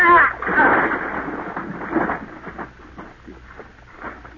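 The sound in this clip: A gunshot in a radio drama: one loud blast at the start, then a rumbling decay that fades over a few seconds.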